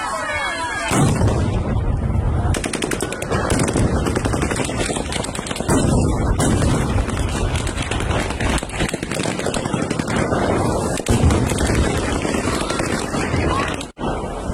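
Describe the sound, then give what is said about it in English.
Gunfire and explosions as Russian soldiers disperse a protest against the occupation in Kherson, Ukraine, with shots and stun grenades. A dense, continuous loud roar is broken by sharp cracks and bangs throughout. “from the Ukrainian city of Kherson yesterday, as Russian soldiers dispersed a protest against their occupation just by firing shots at protesters.”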